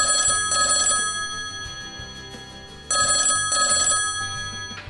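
A telephone rings while an internet call is placed. There are two rings separated by a pause, each made of two quick bursts of steady, bright electronic tones, with no voices.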